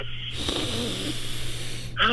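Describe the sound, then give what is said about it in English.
A person draws a long breath in through the nose, a sustained airy, slightly wheezy hiss that holds steady for most of the moment. “On the way in through the nose.”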